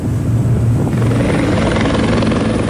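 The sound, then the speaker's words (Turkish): Helicopters taking off for a search and rescue at sea after a ship sank in the Marmara, making loud, steady rotor and engine noise with a low, churning throb throughout. “Helikopterler havalandı.”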